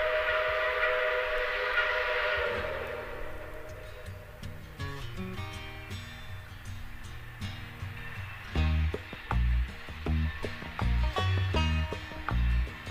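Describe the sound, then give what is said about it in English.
Southbound freight train and high-speed passenger train passing: a sustained whistle-like tone at the start, then steady rumbling and rhythmic, loud clacking of wheels over rails toward the end, with no voices. “The clickety sound of the southbound freight and the high-speed hum of a passenger train”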